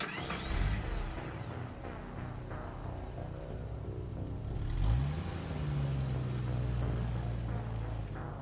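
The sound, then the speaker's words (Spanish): An off-road vehicle's engine runs and revs, its pitch rising sharply midway and then settling into a steady, fairly loud drone. “Saren se montó en el todoterreno y arrancó”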